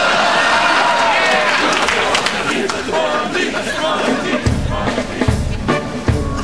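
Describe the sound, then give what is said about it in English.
A large crowd roars and chants a name in unison at a football game, the noise dense and loud throughout, with heavier rhythmic pulses toward the end. “Sounds like they're chanting Bundy, Bundy.”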